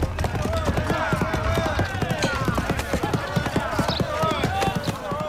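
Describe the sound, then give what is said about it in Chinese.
Galloping hoofbeats of a horse-drawn carriage rushing along, heard as many sharp, rapid strikes in a fast, steady rhythm that stays loud for the whole stretch over a dense, busy background. “马车飞奔而来”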